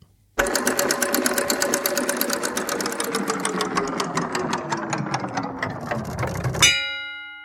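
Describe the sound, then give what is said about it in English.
A spinning prize wheel clatters with rapid, loud clicks that gradually spread apart as it slows, then stops with a brief ringing chime that fades away. “Start up the wheel.”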